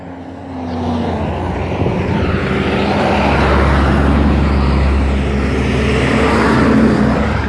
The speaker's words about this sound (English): sorry, there's a lot of buses. There's another one coming.